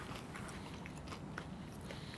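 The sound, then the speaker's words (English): Tater tots dipped in ketchup are chewed with soft, faint crunching and biting sounds that repeat steadily, with no talk. “Well, let's get some dips in this. We do need to do that because it smells pretty good. You have some lovely tots.”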